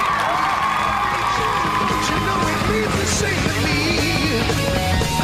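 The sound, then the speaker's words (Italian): Applause mixed with cheering and shouts from a crowd on an Italian radio show, a dense, steady wash of clapping and voices that holds at an even level for the whole clip. “Bravo, un applauso, vogliamo fare un applauso a Parenzo? Facciamo un applauso a Parenzo.”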